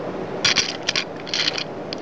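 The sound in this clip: A little figure is torn off, giving several short, crackly ripping bursts in quick irregular succession with brief pauses between them.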